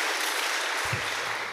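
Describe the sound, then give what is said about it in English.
Audience applause for a journalist and writer: a brief, even burst of many hands clapping in a dense, continuous rush without talk. “But yeah, we need to give him a round of applause.”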